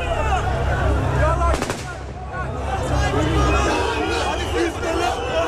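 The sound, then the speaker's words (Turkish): Gunfire rings out on a street where crowds climbed onto tanks outside a police headquarters, including a rapid rattling burst of machine-gun shots, with loud crowd noise and voices all around. “Zaman zaman silah sesleri geliyor. Anons çekmeye çalıştığım zaman makineli tüfek seslerini duydum.”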